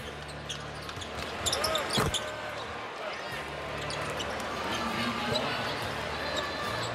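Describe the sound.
A basketball dribbles in the closing seconds of a professional Celtics game, with steady repeated bounces on the hardwood heard under crowd noise and commentators' talk.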